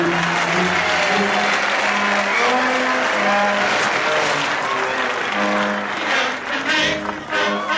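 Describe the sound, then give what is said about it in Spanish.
Children applaud during a staged performance with dancing, their clapping a dense, steady roar running the full length with no pause, over sustained musical tones. “Los niños aplauden y todos bailan.”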